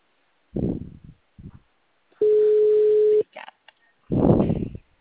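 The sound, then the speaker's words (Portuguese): Ringback tone of an outgoing telephone call, a single steady mid-pitched tone lasting about a second, set between short bursts of nearby speech. “Acabei de ligar pra menina.”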